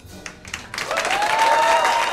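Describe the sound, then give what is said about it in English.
Applause from a small club audience at a live music set starts after a few scattered claps, then swells into steady, dense clapping that keeps building to the end. “It's a small club, and Renee doesn't let the applause speak for itself.”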